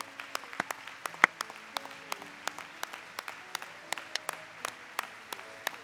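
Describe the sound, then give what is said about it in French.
Sparse audience clapping rises from a Christmas evening gathering. Many individual sharp hand claps come at irregular spacing, fairly faint overall, with one slightly louder clap early on. “Acclamons-lui fort ce soir. Très fort.”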